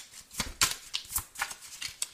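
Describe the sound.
Shuffling of a tarot deck: a steady run of many quick, crisp papery riffles and snaps in a fairly even rhythm, with no talk over it.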